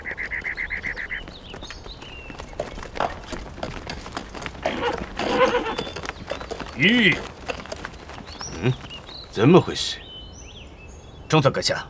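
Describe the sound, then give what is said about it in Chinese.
Horse hooves clip-clop on a road, from a horse with a damaged hoof or worn shoe. The beats come many and uneven, mixed with scattered other sounds. “好像这个马蹄脚长坏了”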